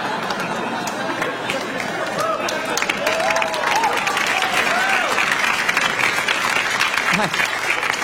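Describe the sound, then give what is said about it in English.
Audience applause after a joke, a dense, steady wash of clapping that holds at a loud level throughout, with crowd voices and a few shouts rising through it. “I like there was a little bit of silence and then just the applause meant, well, that could work.”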